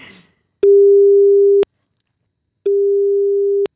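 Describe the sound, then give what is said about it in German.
Telephone ringing tone while calling a mother: two loud, steady, mid-pitched one-second tones at the same pitch, separated by a one-second silence. “Soll ich mir meine Mama anrufen?”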